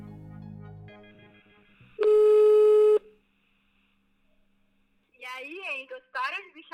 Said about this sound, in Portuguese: eu já sei o que eu vou fazer, eu já sei para quem eu vou ligar.